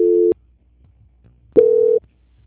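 A telephone call-transfer tone sounds as two steady electronic beeps, the first short and the second slightly longer, separated by about a second of near silence.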